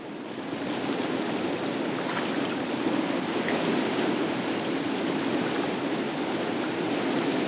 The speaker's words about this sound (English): Then they paddle off down the river.